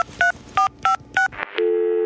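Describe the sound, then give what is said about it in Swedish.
Telephone dialing tones: four short, evenly spaced keypad beeps, then a brief burst of noise, then a steady, continuous line tone that holds to the end. Clear and fairly loud, with no talk. “Jag måste ringa. Vänta, ska vi se. Ska jag ringa här till Estrid?”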